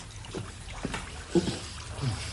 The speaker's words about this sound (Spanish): Se levanta. Camina por la plataforma superior con el agua por los tobillos.